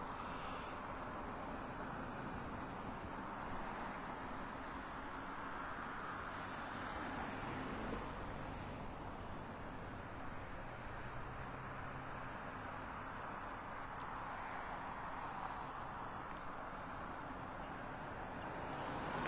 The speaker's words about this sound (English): These cars entering right down from Parkview onto Route 10.